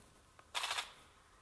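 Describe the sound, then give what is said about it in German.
A video game weapon fires one short burst of rapid gunfire. The crackling burst is loud against otherwise quiet surroundings, with a faint click just before it. “Das hat mich bemerkt, weil ich geschossen habe.”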